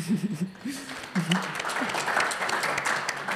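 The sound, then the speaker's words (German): A short burst of clapping starts as a voice trails off. The applause builds into a steady, even patter that lasts about two seconds. “Szenenapplaus.”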